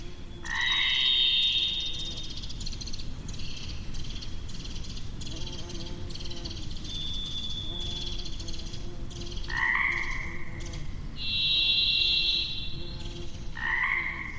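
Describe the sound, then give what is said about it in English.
Pacific chorus frogs croak in a dense, rapid, pulsing springtime chorus in the wilderness, while a varied thrush sings several long, high, sustained whistled notes, each at a different pitch, separated by pauses. “That's definitely a springtime recording. It's busy, a lot of wildlife. We're hearing a varied thrush there, Pacific chorus frog.”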